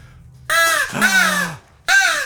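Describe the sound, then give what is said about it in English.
Three harsh, loud caws come from a crow living around a house. Each is a rasping call about half a second long, separated by short silences, with no voices. “So we got a crow call because we have a crow as a friend named Frank.”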